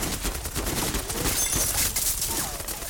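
Heavy gunfire in a firefight against a ceiling turret: many rapid, overlapping shots crackle in dense, continuous bursts for the whole stretch, loud and sharp, with no voices.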